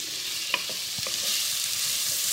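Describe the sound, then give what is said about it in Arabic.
Minced garlic frying in olive oil with browning onions in a pan: a steady, bright sizzle runs throughout, with a few brief scraping taps from stirring over the constant hiss. “ممكن نحط مثلا خمس فصوص توم مفروم فهنفضل نقلب ثلاث دقايق”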